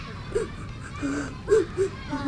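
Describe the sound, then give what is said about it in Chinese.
A person crying, with soft, intermittent whimpering sobs and a few brief wavering cries, quiet overall. “行了，别哭了，洗把脸。”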